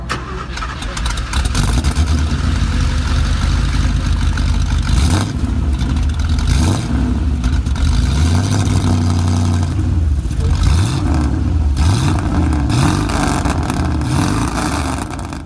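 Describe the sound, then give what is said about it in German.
A racing car engine starts and revs, standing in for the AMG Mercedes raced at Spa in 1971. It catches with a loud roar, then settles into a deep, rough idle broken by several sharp revs that sweep up and fall back. “Bevor Erhard Melcher jetzt gleich weitererzählt, gibt's noch eine kurze Soundprobe. Leider nicht vom Originalauto, aber so oder ziemlich ähnlich muss er damals geklungen haben.”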